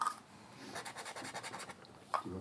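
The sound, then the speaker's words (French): Faint scratch of a pen nib on paper while a small ink drawing is made: a string of short rhythmic strokes, then a brief sharper scrape near the end. “Regardez. Là, j'ai fait un petit dessin avec de l'encre.”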